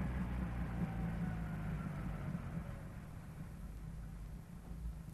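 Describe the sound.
A car engine idles at the gates of a villa on a snowy day, a faint, steady low rumble with a soft hum that holds level throughout.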